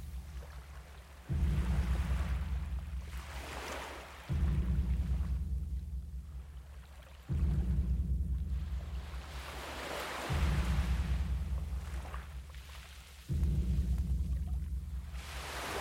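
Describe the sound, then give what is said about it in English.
Ocean waves roll in over sand and wash back out in five regular surges, each arriving about three seconds apart with a strong rush that slowly fades before the next one breaks. “Breathe in as the water gently rolls in over the sand and breathe out as the wave washes back out again.”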